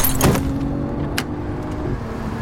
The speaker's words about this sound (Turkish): Sonra gaza var gücüyle yüklenerek hızlanmaya çalıştı.